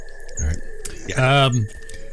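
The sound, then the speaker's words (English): Dark forest ambience with birds calling: a faint chirp early on, then one louder, harmonic call in the middle over a constant low hiss of background noise. “If you hear the noises behind me, we are actually in a dark forest this time.”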